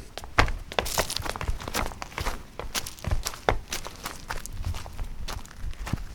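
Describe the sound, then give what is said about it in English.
Many footsteps going down uneven steps into the limestone crypt of St. Mikan's where mummies lie, irregular thuds and scuffs over a constant rustling background. “I'll be taking you down to see the mummies. The steps are a bit uneven. Be careful of the fourth one. It's big.”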